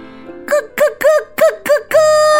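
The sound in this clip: Voices imitate turkeys gobbling in a children's story about a turkey: five short, loud warbling gobbles in quick succession, then a longer sustained call to finish.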